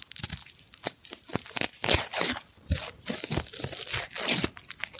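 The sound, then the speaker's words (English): A boiled egg's shell cracking and being peeled close to the microphone, heard as many sharp, irregular crunches, snaps and crinkly tearing sounds. The sounds are loud and busy and come without any voices. “It's actually peeling a boiled egg. Eating a boiled egg. Up close to the microphone. That's the egg cracking and then...”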